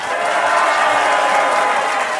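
Audience applause on a French game show as two contestants are welcomed, a thick, continuous wash of clapping that stays loud and even from start to finish.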